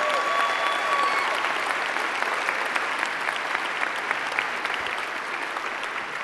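Audience applause welcomes a venue joining live by video for a Christmas-season church gathering. Dense, steady clapping from many hands holds at an even, loud level from start to finish.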